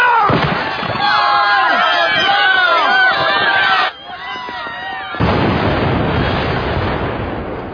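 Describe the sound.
Explosions as the world blows up: a dense, chaotic barrage of booms and crackling bursts mixed with shouting voices, a brief dip in level, then a sustained roaring rumble that slowly fades.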